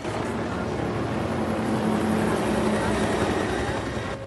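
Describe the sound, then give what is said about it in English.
Helicopters flying overhead outside a hospital after a tsunami: a steady, loud engine drone with a low, continuous hum running under it, holding level from start to finish before easing slightly at the end. “Helicopters fly overhead.”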